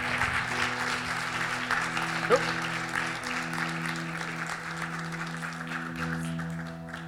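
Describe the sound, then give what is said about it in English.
Audience applause at a Sunday church service as a guest is welcomed, steady and continuous, with dense clapping at an even level that tapers slightly near the end. “will you put your hands together and welcome Rebecca Minde, please.”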